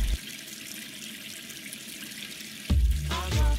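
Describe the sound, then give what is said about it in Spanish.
Water runs from an open tap, a soft steady hiss that suddenly swells into a louder, fuller gushing rush near the end. “la canilla abierta por un minuto da hasta 6 litros de agua”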